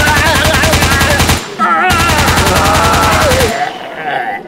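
Rapid automatic gunfire as a comedy sketch sound effect, in two long, loud, evenly pulsing bursts separated by a short pause, followed by a fading tail.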